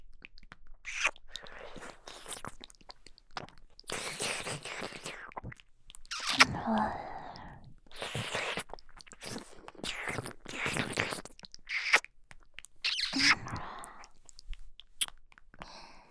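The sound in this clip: Close-up ear licking: a continuous run of wet smacks, slurps and soft clicking mouth noises, intimate and close, rising and falling in bursts throughout.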